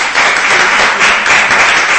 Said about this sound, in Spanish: A Miguel no le hemos aplaudido al final.